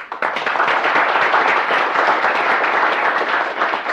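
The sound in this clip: Dense applause welcomes the executive director of WICHE to the podium. It forms a steady, loud wash of many hands clapping for about four seconds and stays even from start to finish.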